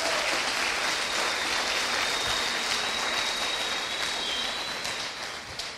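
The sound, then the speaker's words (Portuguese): Audience applause during a church sermon: a dense, steady wash of many hands clapping with no voices, holding level for most of the stretch before thinning slightly at the end. “Pode aplaudir.”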